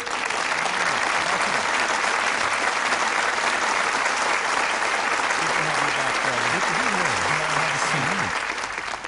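A studio audience gives a guest a warm welcome with loud, sustained applause, a dense, even wash of clapping that holds steady for several seconds and tapers slightly at the end.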